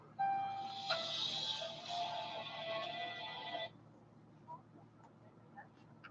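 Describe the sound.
Ringback tone of an outgoing telephone call: one long, bright, steady tone lasting a few seconds, then it stops and only faint scattered sounds remain.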